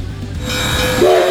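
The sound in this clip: A train rumbles along, then its horn sounds a steady, loud tone near the end of the short clip.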